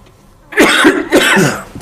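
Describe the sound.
Two harsh coughs from dust lodged in the throat, each a rough burst roughly half a second long, separated by a brief gap.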